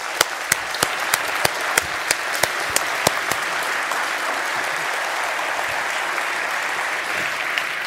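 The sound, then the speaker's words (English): A church audience applauds as a pastor is welcomed to the stage. Steady clapping fills the whole stretch, with sharp individual claps standing out over the crowd early on. “Today, it is my pleasure to welcome to the stage Pastor Colia McNair, and I'm going to ask him to speak a little bit about Zion City. Give it up for Colia.”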